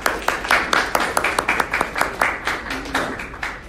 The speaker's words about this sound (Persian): دست هم بزنیم واسه تیم شماره 1.